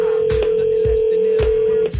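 A telephone call being placed, with a loud, unbroken tone held for the whole stretch and a few soft, evenly spaced low knocks beneath it.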